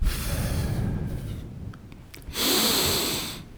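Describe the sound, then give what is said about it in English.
A deep exhale empties the lungs during a breathing exercise. A long, rushing breath fades out, then after a brief lull comes a louder, hissier outward push of air that holds steady to the end. “try to bring your diaphragm to empty your lungs just deflate”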